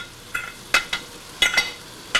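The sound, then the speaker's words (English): Dishes being washed at a kitchen sink: several brief, bright scraping clinks in an uneven rhythm, each standing alone over a quiet background. “Inside Kay's house, Jesse takes off her jewelry to do the dishes.”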